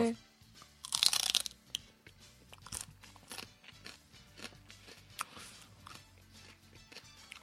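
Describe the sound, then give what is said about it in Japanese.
A crisp bite into the base of a plant stem: one loud, sharp crunch near the start, then many smaller crackling crunches of chewing that continue at a lower level to the end. “茎の根元の方をですね、ちょっとガジッとかじってもらうと”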